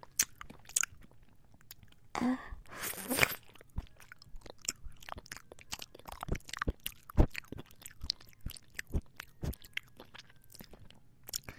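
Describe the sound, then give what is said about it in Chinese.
Biting into and chewing strawberry-flavoured fruit jelly: a short burst of wet biting sounds early on, then many small, soft, irregular chewing clicks and smacks, fairly faint throughout. “我先咬一口，然后你吃，”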